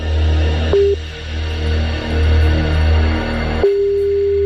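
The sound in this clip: A telephone ringback tone plays while a listener is being called back. A brief steady tone sounds first, and a longer unbroken tone begins near the end, both over a low, uneven hum.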